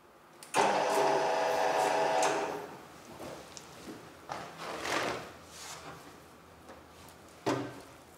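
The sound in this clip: A derinding machine is pulled through a slab of pork fat to strip the rind, giving a loud, steady buzzing whir for about one and a half seconds, then softer scraping and handling noises and a short burst near the end.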